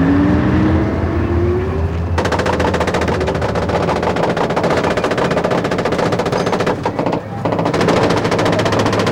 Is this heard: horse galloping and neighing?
no